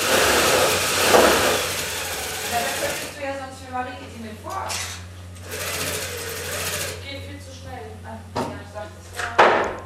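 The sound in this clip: Sewing machines in a sewing workshop of about 150 square meters run with a loud, dense mechanical whir at first. They then drop back and return in shorter bursts while a person talks over them.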